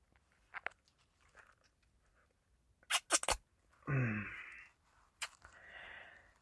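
Food being tasted and chewed: a few crisp, crunchy bites and chewing bursts, with quiet gaps between them.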